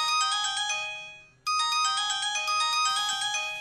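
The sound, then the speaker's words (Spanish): A phone ringtone plays a bright electronic melody. It breaks off briefly and then starts its repeating pattern again, loud and steady, with no voices. “Ah, la máquina, me están llamando, atenderé.”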